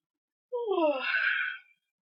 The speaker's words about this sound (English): Would you yawn? I do what I want. And what I wanted to do was yawn.